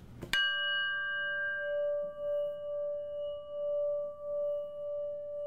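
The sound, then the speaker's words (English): Singing bowl struck once, then ringing with a sustained, pure, shimmering tone and steady overtones that slowly waver in loudness over several seconds. “So I want you to hear the sound of the singing bowl, which is one of my absolute favorite sounds”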